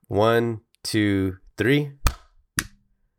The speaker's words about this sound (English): Oh, why don't you do a count, and I'll clap on your count. I just want you to hear this, how bad this is.